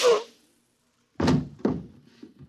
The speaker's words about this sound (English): And just one more shot for good measure, to make sure you're really dead.